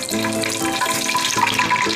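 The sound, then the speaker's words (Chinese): Steady, loud sizzling of hot oil ladled over food as it deep-fries in oil heated to 200 degrees, a dense crackling hiss that continues without a break and with no talk. “差不多我们就这样子炸哈，这样子像洗澡一样的哈。 对，给它淋上去。”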